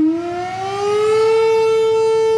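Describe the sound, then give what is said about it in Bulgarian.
A civil defense siren wails during a memorial commemoration at Okolchitsa peak, its single loud tone sliding slightly upward at the start, then holding a steady, sustained pitch throughout. “застинаха по двоя на сирените заедно с хора от различни възрасти”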